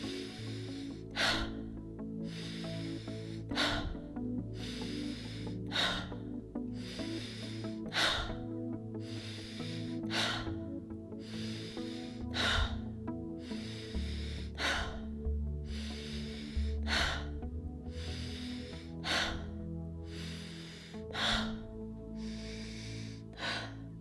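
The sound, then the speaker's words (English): Rapid, rhythmic breaths in and out during a guided Wim Hof breathing exercise. Many evenly spaced, forceful breaths repeat steadily over a sustained, low musical drone. “And now breathe in and release. Breathe in and release.”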